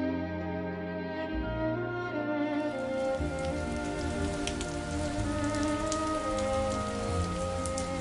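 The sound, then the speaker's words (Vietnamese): Steady rain falling that lasts into the evening, a dense continuous hiss of drops striking surfaces, loud and unbroken from start to finish with no voices. “Cơn mưa kéo dài đến tối vẫn không dứt”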